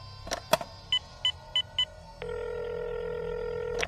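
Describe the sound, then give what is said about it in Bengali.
A telephone is dialed in a flat: a couple of sharp clicks, then four short keypad beeps at an even pace, followed by a long steady tone that cuts off at the end. “ফ্ল্যাটে ফিরেই কর্নেলকে phone করলাম”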